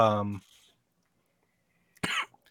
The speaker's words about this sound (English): I have a cough. This is going to be a recurring theme on the show tonight. My cough gets worse the more I talk.